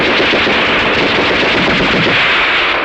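Machine-gun fire during a battle charge, a loud, dense, continuous rattle of rapid shots that fills the whole stretch without pause.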